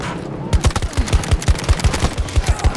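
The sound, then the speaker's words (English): Rapid gunfire from an AC-42 rifle set to single shot in a video game: many sharp, evenly spaced shots in a steady, quick rhythm, loud and alone. “I'm rolling the AC-42 with the single shot. It actually does better with a single shot, I feel like.”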